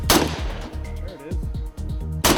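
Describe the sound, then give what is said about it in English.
Sharp, loud gunshot blasts from an M8 gun fired from the shoulder, one at the very start and another at the end, with voices and other sounds in between. “So what's it like to fire the M8? Really push that gun into your shoulder.”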